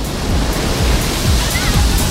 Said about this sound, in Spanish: Día de Poniente, mediodía de olas, de viento en la playa de Salobreña